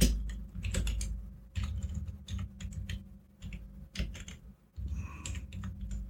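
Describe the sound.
Rapid typing on a computer keyboard, a clatter of many keystrokes in uneven bursts broken by brief pauses, fairly close and alone without talk.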